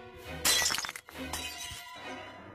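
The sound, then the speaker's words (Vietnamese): A bowl shattering: one sharp, bright crash followed by a brief scatter of clinking fragments, fairly faint overall. “một cái chén bay đánh vồ thẳng vào đầu của thầy, vỡ tan tành.”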